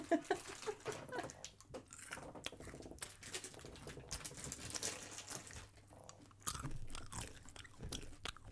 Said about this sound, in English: Give me those M&Ms. I'll do ASMR again.